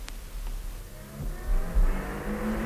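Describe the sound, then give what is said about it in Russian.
A car pulls up and comes to a stop, its engine a low, steady rumble that swells briefly near the end, with no voices. “Наконец удалось остановить машину.”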